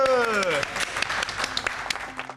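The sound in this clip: Applause from an audience after a children's fighting performance: a brief voice opens, then a dense, scattered run of claps continues steadily for about two seconds.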